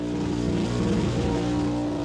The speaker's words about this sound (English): And also, we pay our respects to burnout masters past, present and emerging. Breathe in that tyre smoke. It's got to be carcinogenic.